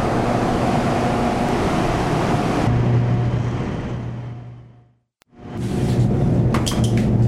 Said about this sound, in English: That is the sound of hydroelectricity being produced.